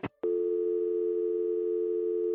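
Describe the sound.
A sharp click, then a steady, low, continuous telephone tone after the other party abruptly hangs up, holding unbroken to the end with no voices.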